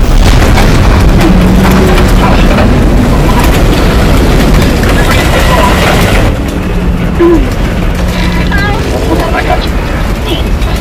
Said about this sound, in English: It exploded! How did that happen? It doesn't matter! Happen? The debris wave! Everyone brace on the hull.